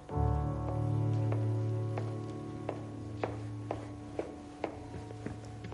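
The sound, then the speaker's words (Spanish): Hurried footsteps along a corridor, heard as a steady series of quick, sharp taps at an even pace. They follow a sustained low tonal hum that fades out first. “Poco después, Tomás camina apresuradamente por el pasillo.”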